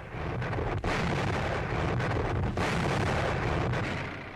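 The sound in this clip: Massive coastal guns firing during military exercises in Ireland, a loud, sustained booming roar that barely lets up, broken only by brief dips, with no voices.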